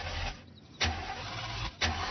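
A car engine being started: two short, loud cranking bursts about a second apart rise over a low, steady rumble.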